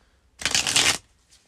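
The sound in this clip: Tarot cards being shuffled before a card is drawn, a single brisk riffling burst of papery flutter lasting just over half a second, loud against near silence.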